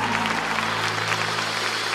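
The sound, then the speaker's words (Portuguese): Applause from a church audience clapping for Jesus during a live religious service: a steady, dense patter of many hands that holds evenly throughout over a constant low hum. “Dá uma salva de palmas para Jesus aí.”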